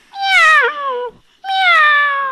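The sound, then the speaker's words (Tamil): A kitten meows twice: two loud, drawn-out, high harmonic cries separated by a brief pause. The first wavers and dips in pitch near its end, and the second holds steadier. No other sound accompanies them. “இது பேர் குட்டி பூனை.”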